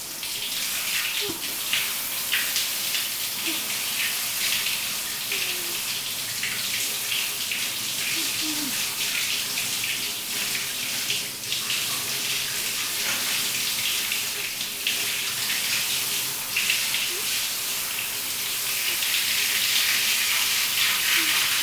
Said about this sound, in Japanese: お湯かけるね